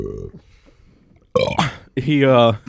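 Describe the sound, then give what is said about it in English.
A person lets out loud burps amid casual talk, with one long, voiced belch whose pitch wavers, following a short burst of speech. “So fuck, you got me fucking burping now.”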